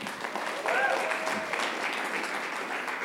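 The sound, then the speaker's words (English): Audience applause at a live talk event, steady dense clapping throughout, with a short voice rising briefly over it early on. “indeed, the applause is well deserved.”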